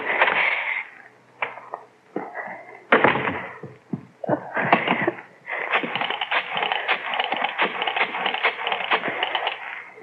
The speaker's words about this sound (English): Key. Where's my key? Darn this lock. Darn the lock.